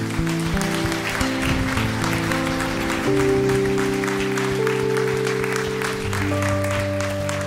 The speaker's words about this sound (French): Est-ce qu'on peut acclamer encore le Seigneur ?